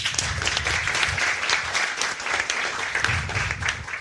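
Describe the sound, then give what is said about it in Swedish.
Warm audience applause welcoming a comedian guest to a panel show: dense, steady clapping throughout, fairly loud, with no voices. “Gott folk, ge en varm applåd till Elinor Svensson.”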